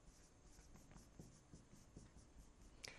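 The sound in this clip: Writing on a board during a maths lesson makes faint, scratchy strokes in a quick, uneven rhythm over a soft background hiss.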